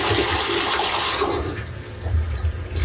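A small child's toilet used for potty training flushing: a loud, rushing gush of water that eases slightly, then surges again.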